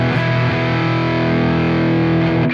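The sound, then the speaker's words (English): Guitar amplifier turned up into thick overdriven distortion, with an unexpected buzz: a steady, loud, harmonically dense sustained tone that holds for the whole moment without talking. “it gets much more full voiced, more like a almost distortion pedal kind of thing.”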